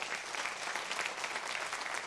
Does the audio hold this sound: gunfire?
no